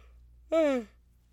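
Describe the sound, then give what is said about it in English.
A person gives a short voiced yawn, a single breathy tone whose pitch slides downward for under half a second, alone in an otherwise quiet moment. “I'm like, don't yawn, don't yawn, don't yawn. And then I'm yawning.”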